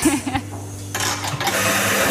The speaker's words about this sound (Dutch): En de koffie hier, het grote koffieautomaat. Ja, ja, echt een professionele machine.